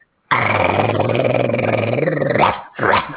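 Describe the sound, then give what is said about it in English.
A space guard dog in a video game growls in a harsh, low, steady rumble for about two seconds. After a brief gap comes another short, gruff burst. “They have Space Dog guarding their station. You hear the dog?”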